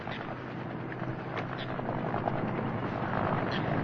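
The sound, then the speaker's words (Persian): Helicopter flying over a reed marsh, a dense, rumbling rotor-and-engine roar that holds steady and grows slightly louder toward the end. “اسد به همراه علی که قفور رو کول کرده در حرکتن که هلیکوپتری رو میبینن.”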